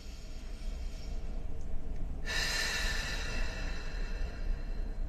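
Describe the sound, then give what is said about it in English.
Deep breathing: a long, airy breath starts about midway and rushes on steadily to the end, over a low background hum. “have you taken time to do any deep breathing today?”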